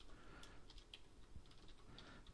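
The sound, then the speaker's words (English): Someone types quickly on a computer keyboard at a desk, producing many light, faint, irregular key clicks. “hold on, let me type that out right now.”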